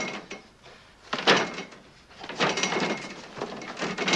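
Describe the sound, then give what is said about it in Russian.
Someone tries and fails to open a door: it rattles and clatters as it is pushed and tugged, in several uneven bursts of scraping mechanical noise, fairly loud throughout. “пытается открыть дверь. У него не получается.”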